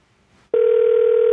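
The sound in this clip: A telephone tone heard while placing a call: after a short near-silent moment, a loud, steady, single-pitched electronic tone begins abruptly and holds unbroken to the end.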